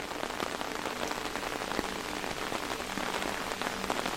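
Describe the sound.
Steady rain falling, a dense, even patter of countless drops hitting a surface, continuous and fairly soft throughout.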